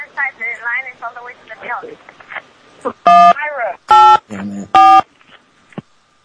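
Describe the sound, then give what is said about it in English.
Three telephone keypad dialing tones from a store bakery phone, loud, steady and evenly spaced, with a person talking before and between the tones. “Hold on, we're calling that Walmart back.”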